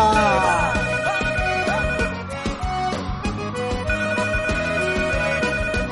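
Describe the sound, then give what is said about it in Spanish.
An incoming call rings as a melodic telephone ringtone, a bright, steady electronic tune with a regular beat that plays loudly throughout with no talk. “me informan ya que tenemos llamada, tenemos llamadita.”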